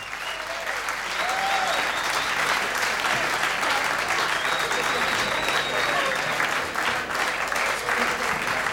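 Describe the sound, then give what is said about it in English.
Steady, dense applause fills the whole stretch as a game show audience cheers a contestant from Parma, Italy, playing Boxcars for the first time. A voice is faintly audible over the clapping. “Give him another big hand for doing that.”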